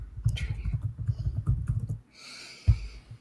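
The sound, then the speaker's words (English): Typing a search into a computer keyboard: quick, uneven clattering taps for about two seconds, then a short lull and one sharper click, with a faint hiss in the background. “And just type in sausage tree.”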